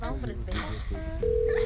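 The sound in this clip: A telephone rings out on an outgoing call. A voice comes first, then a steady electronic tone holds evenly to the end.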